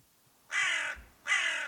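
A crow caws twice, with two harsh, raspy calls of equal length separated by a short pause and no other sound around them.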